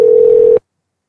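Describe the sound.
A telephone dial tone plays as a single steady, loud hum as a call is placed, lasting just over half a second before cutting off abruptly into silence.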